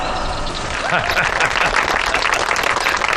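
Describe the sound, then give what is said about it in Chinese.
Steady applause from a crowd greets a dam's newly started generator unit, many dense claps holding an even level, with a voice briefly heard over them. “鼓掌！快， 夫人， 没错，鼓掌！”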